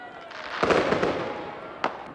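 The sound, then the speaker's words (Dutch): Fireworks go off at midnight on New Year's Eve in Utrecht despite a fireworks ban, with a cluster of loud crackling bangs followed by one sharp, isolated crack over a steady background hiss. “En dan is het 12 uur en ondanks het vuurwerkverbod gaat her en der in Utrecht toch het een en het ander aan vuurwerk de lucht in.”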